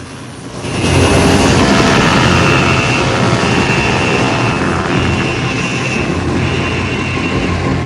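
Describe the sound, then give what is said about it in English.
A black helicopter lifts off into a night sky with a loud, sustained engine roar that swells sharply near the start, then holds as a steady drone with a faint whine layered on top. “A black chopper with a large white 8 painted on the side lifts into a starless sky.”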